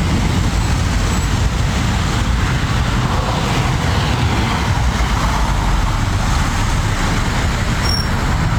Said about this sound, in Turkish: Kilit kavşakta araç sayısı her geçen saat artarken bazı noktalarda kilometrelerce araç kuyruğu oluştu.